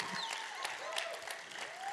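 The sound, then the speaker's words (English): An audience claps steadily for about two seconds, a dense, even wash of many hands with no clear breaks or swells. “Man, you could clap a little better than that if you wanted to.”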